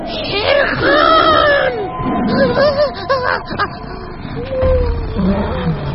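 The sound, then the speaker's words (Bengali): A terrible, fierce animal roar shakes the Seeonee hills valley: loud, drawn-out wailing and howling cries whose tones rise and fall, repeating over several seconds. “ঠিক তখনই একটা ভয়ঙ্কর গর্জনে কেঁপে উঠল সিয়নি পাহাড়ের উপত্যকা।”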